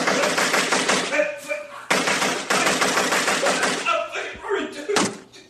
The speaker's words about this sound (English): You like that? You like getting shot? Do you like getting shot?